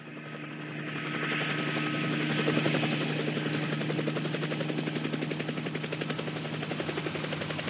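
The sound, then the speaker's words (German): An aircraft comes in to land, its engine giving off a rapid, rhythmic chopping drone. The sound builds gently over the first few seconds, then holds at a steady, moderate level with a fast, even pulse. “Der Platzwart setzte zur Landung an.”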